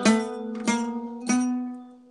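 Single-string guitar phrase on the G string, starting on the open string and moving up through the second, third and fourth frets. Three clear plucked attacks sit close together, and the last note rings on and slowly fades, with no other sound.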